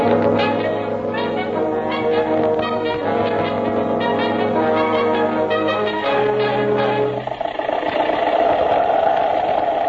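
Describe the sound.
An old motor car engine runs steadily throughout, a loud continuous drone with strong low tones, and its sound changes near the end.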